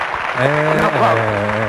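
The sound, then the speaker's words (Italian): Studio audience applause greeting a singer's brother: brief, continuous clapping beneath a prominent voice speaking over it. “Un applauso.”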